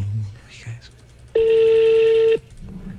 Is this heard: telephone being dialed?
yes

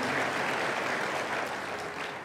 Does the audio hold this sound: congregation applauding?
yes

